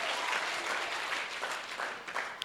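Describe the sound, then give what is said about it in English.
An audience claps for Jesus during a church service: a soft but dense, continuous wash of many hands with no pauses throughout. “Lift your hands, clap them for Jesus.”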